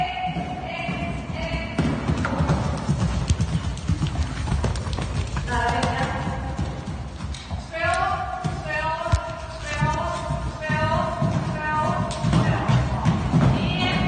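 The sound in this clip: Hoofbeats of a horse jumping a pay-and-jump show-jumping course at a riding school, heard as a steady, busy run of clopping footfalls that continues through the whole passage with no clear break.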